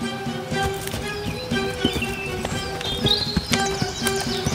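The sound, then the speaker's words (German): Hooves clip-clop steadily as a donkey loaded with sacks of salt walks to market, a brisk, even rhythm of hard knocks on the ground with no talking. “Am nächsten Tag lud der Händler wieder 6 Säcke Salz auf den Rücken des Esels und ging mit ihm zum Markt.”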